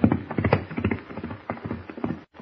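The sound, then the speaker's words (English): Horses' hooves clip-clop as riders set off back to the ranch, a quick, steady rhythm of many hoof beats that continues throughout before cutting off. “As Kent and Jimmy ride back to the ranch”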